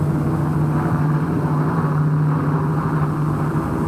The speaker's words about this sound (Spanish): ese avión no debería estar aquí. Me parece que no.